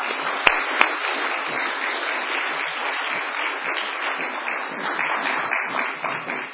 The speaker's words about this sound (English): Lisa, please join us. Let's give them a great welcome here.